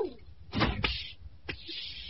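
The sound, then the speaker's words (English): A door being opened, heard as a couple of short, rough scraping bursts close together, then a fainter knock a moment later, all fairly quiet with no talk. “Stand back while I open the door.”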